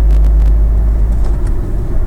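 A car drives with a loud, steady low rumble of engine and road noise, and the level dips briefly as the driver changes gear.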